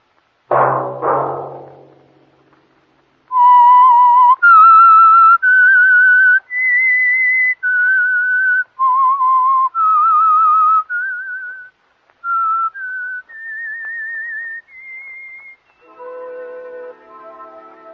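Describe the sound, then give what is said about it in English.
A whistled signal tune of clear, sustained notes that step up and down in pitch, heard alone after a short low burst at the start. “Let that whistle be your signal for the Signal Oil program, The Whistler”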